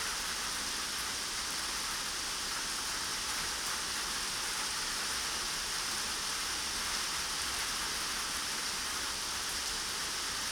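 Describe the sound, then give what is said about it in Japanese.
Steady rain from a sudden summer evening shower falls as an even, unbroken hiss throughout, with no voices. “あなたも雨宿りしようと思ってたんだよね。嫌になっちゃうよね、この夕立。”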